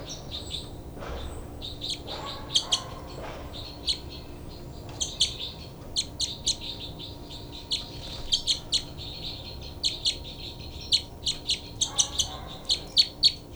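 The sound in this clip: Bird calls: many short, high chirps and squawks in irregular bursts, growing busier toward the end over a low steady background hum.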